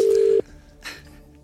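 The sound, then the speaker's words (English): A single steady telephone ringback tone of an outgoing call sounds loud and even for under half a second, then cuts off to a low, faintly noisy background with a brief soft rustle. “Just answer your phone.”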